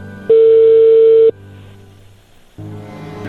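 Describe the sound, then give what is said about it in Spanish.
Telephone line tone as a call comes in on a radio show: a single steady, loud tone lasting about a second, then a low hum, followed by a rise in line noise. “Ahí entró la llamada, Choco. A ver, contéstale.”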